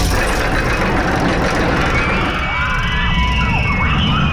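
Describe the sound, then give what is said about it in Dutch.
A figure-eight roller coaster at an amusement park in Appelscha races past: a loud, continuous rumble carries squealing, whistling tones that bend and shift in pitch over the second half. “Wat een heerlijk geluid is dit. Het is het geluid van de Appelscha 8-baan.”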